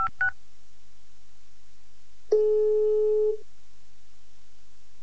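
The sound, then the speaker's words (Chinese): Telephone call being dialled: a couple of quick keypad beeps, then a pause and one steady ringing tone lasting about a second, clear against near silence. “就把电话拨过去了”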